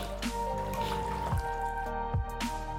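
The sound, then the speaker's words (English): Blood dripping as it drains from a woman's arms, a few slow, separate drops landing over a steady, sustained tonal drone. “I can't bear to watch any more blood draining from her arms.”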